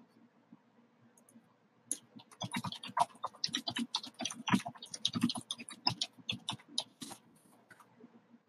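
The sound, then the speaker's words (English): Typing on a computer keyboard: after a brief quiet start, many rapid, irregular clicks and taps follow in quick bursts, fairly loud and with no talk over them. “So I made a mistake there, but well, I'm going to type something to Dinky real quick,”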